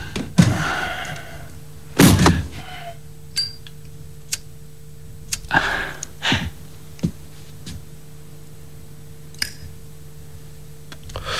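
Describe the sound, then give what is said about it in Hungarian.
A door being closed in a home where people are sleeping. A few heavy thuds and knocks are spread apart, separated by sharp, faint clicks and ticks. “Tudja, becsukná az ajtót, hadd aludjanak a szüleim.”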